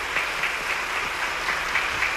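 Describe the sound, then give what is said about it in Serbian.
Sustained applause from parliament members standing to approve the proclamation of the constitution of Socialist Federal Yugoslavia, a dense, steady wash of clapping that holds evenly throughout without voices. “Svi poslanici su ponovo ustali i dugotrajnim aplauzom odobravaju”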